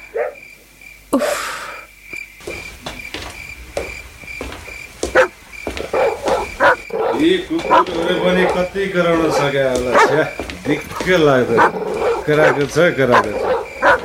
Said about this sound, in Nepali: होइन, यी कुकुरहरूले मलाई चिनेन कि के हो?